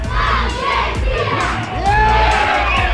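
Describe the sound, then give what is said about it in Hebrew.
A crowd of residents in Or Ner, gathered for a communal viewing, cheers an Argentina goal with loud, sustained shouting and whooping that never drops off. “באורנר עשרות תושבים התאספו לצפייה משותפת ולחגיגות הניצחון. כתבתנו שקד ויקינסקי שמעה אותם. הנה גול של ארגנטינה.”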